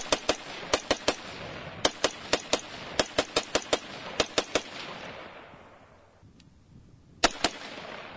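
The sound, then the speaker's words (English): Gunfire from a 100-round gun: many sharp, loud reports in quick irregular bursts, then a pause of about two seconds before a few final shots. “So this particular model is a 100-rounder. Like I said, we're also going to do a 60. Why don't you go ahead and try this out a little bit? All right. Well, man, thank you very much. And let's get to shooting this thing.”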